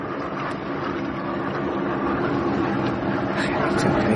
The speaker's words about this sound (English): It's one of our spotter aircraft. I can tell the sound.